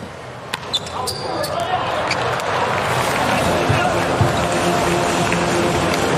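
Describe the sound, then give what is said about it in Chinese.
Polish player Lemański serves during a volleyball match against Ukraine, with a few sharp ball impacts early on under a steady, loud arena crowd din and a talking voice. “对， 莱曼斯基的发球。”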